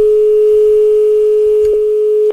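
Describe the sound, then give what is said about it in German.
Telephone dial tone while a call to a service desk is placed: a loud, steady, unbroken hum with a couple of brief clicks near the end before it cuts off abruptly. “Da können wir doch einfach mal den Service Desk anrufen und einen Passwort-Reset live durchführen.”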